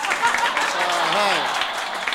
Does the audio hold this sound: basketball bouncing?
no